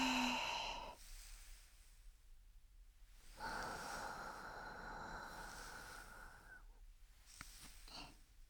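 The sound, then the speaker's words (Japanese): Slow, soft breathing in and out during a relaxation sequence before ear cleaning: a few long, airy breaths separated by quiet pauses, faint and close, with no talk. “吸って吐いて、”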